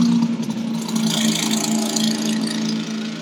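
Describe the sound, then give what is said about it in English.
A car with a loud, unauthorized muffler gives off a continuous throaty exhaust drone over a steady low hum, loud and unbroken, with no voices. “I do not believe that is an authorized muffler on a vehicle.”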